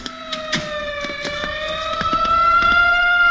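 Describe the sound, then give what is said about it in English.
An ambulance siren sounds on a Manhattan street near 59th Street and Madison Avenue: a steady wailing tone that drifts slowly upward in pitch and swells slightly louder toward the end, with sharp clicks and traffic noise scattered through it. “The ambulance heading for the Park Hamilton.”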